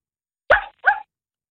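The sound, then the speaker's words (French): A child imitates a dog barking with the voice, giving two short, sharp woofs in quick succession with silence before and after. “Est-ce que je peux avoir un chien?”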